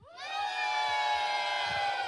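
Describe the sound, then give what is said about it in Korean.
Audience cheering and shouting at a live event in Busan, rising into a loud, sustained collective yell that holds steady to the end. “여러분, 소리 질러!”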